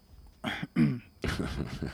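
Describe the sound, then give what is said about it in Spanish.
Throat clearing: a few short, rasping bursts in quick succession, quiet and separated by brief gaps. “¿Esa carraspera ha sido por algo?”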